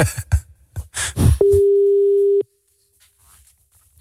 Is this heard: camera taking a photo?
no